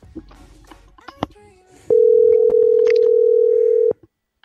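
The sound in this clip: A telephone tone as a call is being placed: a few faint, brief sounds, then one steady, single-pitched tone that holds for about two seconds and stops abruptly.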